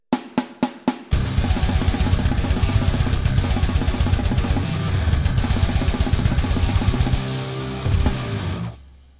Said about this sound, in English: Now, overall, this version of the blast beat sounds really, really frantic, and it sounds like this.